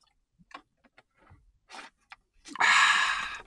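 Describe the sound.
Water being drunk: a few small gulps and mouth clicks separated by silence, then a loud breathy exhale lasting about a second.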